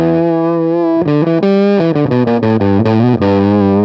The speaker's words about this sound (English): Then it goes into this fuzz pedal, Fuzz Stang, very raunchy kind of 60s.